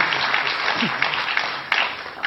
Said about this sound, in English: Slow clap, slow applause.